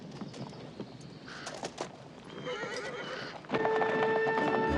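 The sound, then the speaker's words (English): A horse pulls a wagon down a busy town main street, hooves clip-clopping steadily while the horse whinnies, and the sound grows louder and steadier toward the end. “In the town of Payson, Will and Beth drive down the busy main street in their wagon.”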